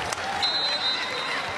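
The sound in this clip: An arena crowd cheering and applauding at a college volleyball match between Oregon and Illinois as Oregon reaches set point, a dense, even roar with no distinct voices standing out.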